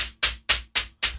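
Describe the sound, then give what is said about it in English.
An object tapped against a desk, with five sharp, evenly spaced knocks, each a crisp bright click that decays quickly before the next. “So here's just the regular sound of me tapping it on the desk. Can you hear it?”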